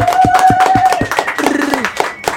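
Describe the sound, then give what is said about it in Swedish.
A few people clap briefly in a quick, regular rhythm. Voices can be heard alongside the claps. “Det krävs en applåd.”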